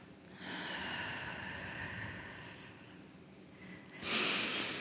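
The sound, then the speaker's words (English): A slow, deep inhale drawn in through the body lasts about two seconds and fades softly, then a shorter, sharper breath follows near the end, during a guided standing grounding exercise. “take a deep breath.”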